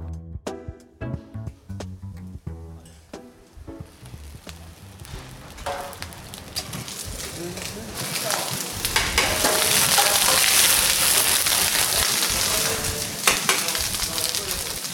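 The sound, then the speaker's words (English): Steady frying sizzle as a chef cooks paella of broth, rice and saffron in a Valencia restaurant, opening with a few sharp clinks and scrapes of stirring, then swelling into a dense, loud hiss before easing slightly. “That's the sound of a chef turning some broth, rice, and saffron into a Spanish culinary treat, paella.”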